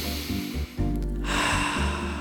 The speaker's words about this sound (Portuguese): Respira, bicha. Tá na hora de você fazer assim, ó.